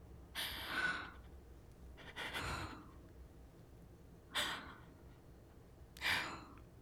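A person breathes deeply in and out. Four soft, airy breaths arrive at slow, fairly even intervals and stay faint, with no talking.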